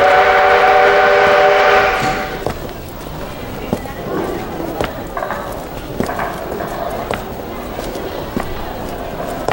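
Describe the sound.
A train whistle sounds a steady harmonic tone for about two seconds as a train prepares to leave a station. Busy rail clatter and people talking follow.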